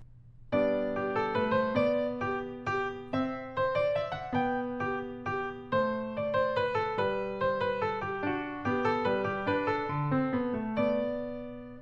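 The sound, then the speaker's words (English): A Bach minuet on piano played with arm movement and no wrist, giving a steady stream of evenly weighted notes over a low accompaniment, with each note struck firmly and little separation in the phrasing. “if I were to play a Bach minuet without using the wrist, you get a sound like this.”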